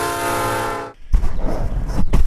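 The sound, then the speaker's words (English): A train on a busy railway line sounds a long, steady horn, then a loud rumbling, clattering rush as it passes, heard from the verge beside the track. “I'm Ross Kemp, on trains, and I'm on the verge, next to a busy railway line, filming and viewing trains through my binoculars.”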